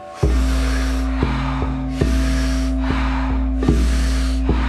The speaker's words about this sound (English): take a deep inhale. Exhale the breath, and here we go.